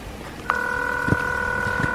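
Ringing tone of a phone call to a grandmother that goes unanswered: a steady electronic tone starts after a brief pause and holds to the end over faint background noise, with a couple of soft low thumps.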